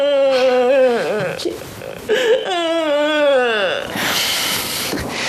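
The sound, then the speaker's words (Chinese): A person crying in loud, drawn-out wails: several sobbing cries, each falling in pitch at its end, then a breathy, noisy sob. “别哭，别哭了啊”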